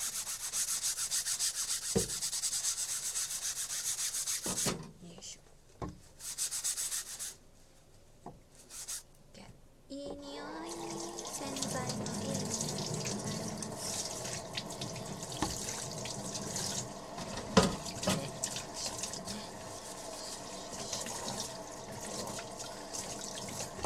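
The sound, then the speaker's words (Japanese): A cutting board is scrubbed under running tap water at a kitchen sink. Faint rubbing and splashing stop and start with a few light knocks, then give way to a steady stream of water. “まな板出しっぱなしのまな板を洗いましょう”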